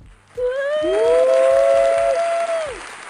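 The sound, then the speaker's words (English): An audience claps steadily to welcome a guest, and loud, shrill whistles ring out over the applause, one held long and another sliding upward. “Guys, put your hands together.”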